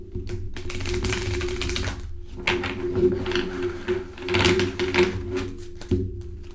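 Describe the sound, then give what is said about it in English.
A deck of cards being shuffled and cut: a dense run of crisp riffling and snapping clicks in several bursts, steady and fairly quiet, with no voices. “I'm gonna shuffle the cards right quick. I also cut the cards, I'm curious.”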